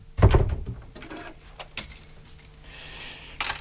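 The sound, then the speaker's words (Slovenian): Keys jangle and a heavy thunk sounds as a door is locked by someone leaving a home with the electricity switched off, followed by a few sharper clicks and rattles. “Zaklenem in grem.”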